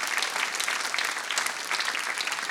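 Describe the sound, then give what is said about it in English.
Audience applause for the organisers of a music festival: dense, steady clapping from a large crowd that holds at an even loudness throughout, with no voices heard over it. “This community of people that's been doing this, it's an amazing festival, and they make us feel so welcome and make you feel so welcome. Please give them all a hand.”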